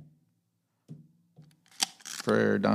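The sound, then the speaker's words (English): A Leica M3 shutter fires a few soft, crisp clicks spaced irregularly, and then a person starts talking over the last moments. “You get an M3 shutter. And I don't think I gave enough shutters for everybody else. I'm going to give everybody else one more shutter. One for each.”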